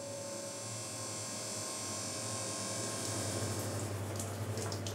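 Electric motor running steadily while whey is heated and stirred during cheesemaking. It gives off a continuous low hum with a faint watery hiss and no talk.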